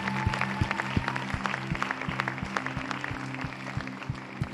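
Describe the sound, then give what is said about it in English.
A church audience applauds to welcome new members, a steady wash of clapping over music with a regular beat and sustained low tones. “can we just put our hands together this morning and welcome people into the family of God today?”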